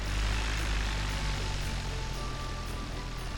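A small airplane engine given power for taxiing: a loud, steady propeller drone with a rough, buzzing roar that holds throughout, with no voices.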